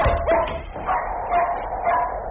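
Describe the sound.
A dog barks in a few short, yelping bow-wows with a somewhat whiny, mid-pitched tone, heard alone and fairly clearly.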